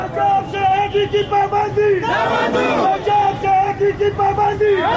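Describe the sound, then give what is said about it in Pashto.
A protest crowd of shopkeepers and flour dealers in Swat chants slogans against a ban on flour supplies. Many voices rise and fall together in loud, rhythmic, sustained calls. “هلته په سواد کې بیا هم ځایي خلکو نن په دې اړه مظاهره کړې ده”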